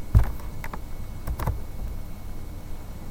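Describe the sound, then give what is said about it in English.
Typing on a computer keyboard to enter a search term: a few sparse, light keystroke clicks in the first half, then only faint background hiss. “So I'll go up here and just type in ProParam.”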